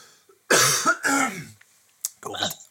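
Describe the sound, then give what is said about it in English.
A coughing fit with choking: a few harsh, loud coughs in quick succession, then a short pause and another rough burst of coughing. “Excuse me, choking to death here.”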